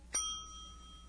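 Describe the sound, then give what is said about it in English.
A telephone rings from inside someone's stomach, heard as one sharp metallic bell ding with bright, sustained high overtones that slowly fade, alone with no voices. “Rachel gets the phone number from the telephone company and dials the number. She hears ringing in Charlie's stomach.”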